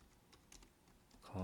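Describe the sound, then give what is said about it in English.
Typing on a computer keyboard: a few faint, scattered key clicks, soft and irregular, with a louder sound arriving at the very end. “So, the conjugation, let me just type it up here.”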